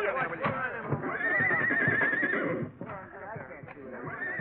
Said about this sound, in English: Guys, get those old nags into the barn and make it snappy.